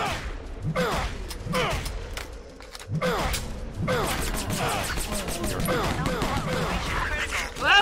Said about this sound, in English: MP5 burst fire. Nice. There is a suppressor on. Reloading!